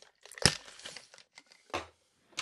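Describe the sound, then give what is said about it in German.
Crinkling and tearing of a new bottle of Noilly Prat vermouth being opened with difficulty: a few sharp crackling bursts separated by short quiet pauses, fairly faint overall. “Verdammte Axt, wieso geht denn das Ding nicht auf? Jetzt. Oh. So, jetzt habe ich eine frische neue Prattflasche offen.”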